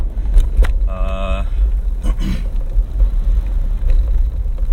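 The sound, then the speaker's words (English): Steady low engine and road rumble from inside a car on a morning drive to work, droning continuously beneath a man talking. “I am on my way to work. Got about a 40-minute ride and got you along to keep me company.”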